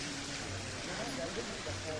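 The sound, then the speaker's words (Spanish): Water splashing in fountains, heard as a continuous broad rushing hiss with a steady, unchanging texture and no distinct individual drops. “Y como escuchan de fondo, las fuentes, el agua,”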